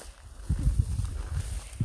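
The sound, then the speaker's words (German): Footsteps of people walking up onto a field, a loose run of soft, low, dull thuds on the ground, fairly faint and with no talking. “Also wir gehen gerade übrigens aufs Feld rauf.”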